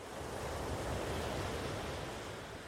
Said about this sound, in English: let the sound of the ocean waves wash over you, calming your mind